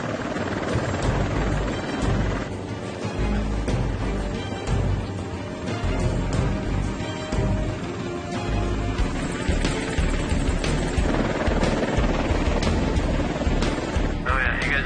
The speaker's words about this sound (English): The chopper skids could sink right into the marsh, so the pilot can only hover.